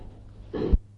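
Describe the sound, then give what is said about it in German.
A person imitates laboured, difficult breathing with a single short, strained gasp of air, brief and fairly quiet. “Und sehr körperlich auch. So schwierig zu atmen, etwa so.”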